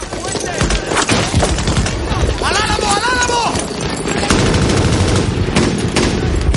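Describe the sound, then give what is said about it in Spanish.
Heavy gunfire from a World War II battle scene in a film: many rapid shots and bursts crackle densely throughout, with a voice speaking over the shooting. “Miller y Ryan corren hacia el puente asediados por las balas.”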